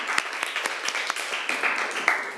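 Students clapping for themselves in a lesson after a correct answer, giving a steady patter of many light, scattered claps at moderate loudness.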